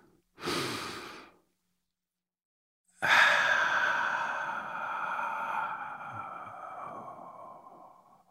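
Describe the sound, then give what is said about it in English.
A deep breath taken before a story reading: a short, rushing inhale, a pause of silence, then a long, slow, airy exhale that fades gradually. No voices. “And if you're ready, let's take a deep breath.”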